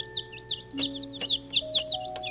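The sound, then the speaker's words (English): Baby chicks chirping: many short, high, rapid peeps in quick succession, fairly faint, with a steady low hum underneath. “They have feathers, not fur. Isn't that nice? Someday they'll grow into be big hens and they'll be able to lay eggs.”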